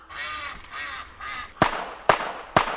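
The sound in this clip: Ducks quack outdoors, three soft nasal calls in quick succession, then three sharp, loud bangs spaced about half a second apart cut in.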